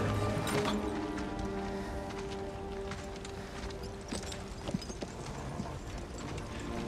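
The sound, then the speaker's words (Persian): Horse hooves clip-clop in a steady stream of many sharp, hard knocks, moderately loud over a dense, continuous background. “سوار اسب من بشید.”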